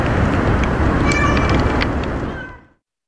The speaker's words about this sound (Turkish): Anne kedinin uzun süre yavrularını aramasıysa yürekleri sızlattı.